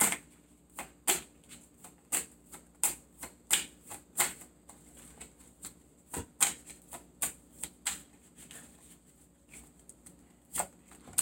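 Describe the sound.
Tarot cards being shuffled and drawn, heard as many crisp, sharp snaps and taps at an uneven, fairly quick pace, each brief and clicky, with quiet gaps between them and no talking.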